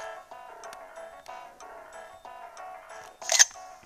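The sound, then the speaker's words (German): A camera shutter click from an in-game photo taken in a video game: one brief, bright snap near the end, heard over steady background music. “Machen wir im Inventar ein Foto.”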